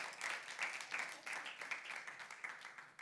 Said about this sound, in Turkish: Onları alkışlayalım. Şabu abi de alkışlayalım.